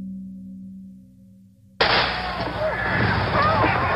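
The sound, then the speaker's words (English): A single gunshot from a .38 caliber revolver cracks out suddenly and loudly after a low, steady hum. Dense, sustained noise follows and stays loud to the end. “Thank God, there's been a shot.”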